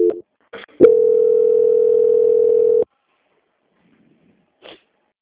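Telephone line tone during a call transfer: two short clicks or beeps, then a steady low-pitched tone held for about two seconds, silence, and one brief blip at the end.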